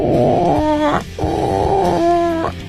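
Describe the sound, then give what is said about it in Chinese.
A human voice imitates a tired, mournful hen that has just laid an egg, producing two drawn-out, throaty clucking phrases separated by a brief pause. “这是一只很悲伤的老母鸡， 这是一只下完蛋以后比较疲累的鸡。”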